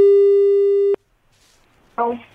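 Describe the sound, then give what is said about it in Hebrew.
A telephone call tone: one loud, flat, buzzy beep holds steady for about a second, cuts off abruptly, and after a short silence a burst of talk begins. “טוב, טוב, בואו נתקשר.”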